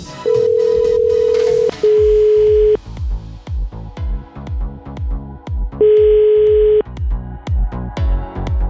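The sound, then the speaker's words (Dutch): An outgoing telephone call rings: three steady ringback tones, the first two close together and the third after a long pause, over rhythmic background music with a thumping beat. “Nou, we gaan eh, Rick eens eventjes bellen.”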